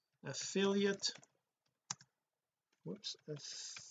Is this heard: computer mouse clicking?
yes

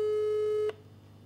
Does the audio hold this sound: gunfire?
no

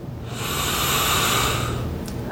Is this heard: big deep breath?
yes

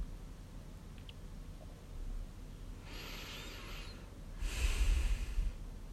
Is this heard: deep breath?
yes

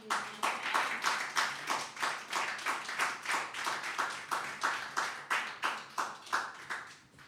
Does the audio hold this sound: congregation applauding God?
yes

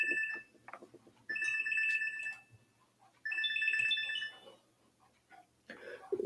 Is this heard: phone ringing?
yes

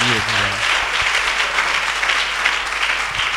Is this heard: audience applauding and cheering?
yes

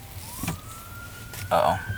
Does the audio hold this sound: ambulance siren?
yes

